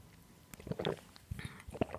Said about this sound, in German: Aber oh, Leute, ich trinke einen Schluck Kaffee, ich muss wach werden.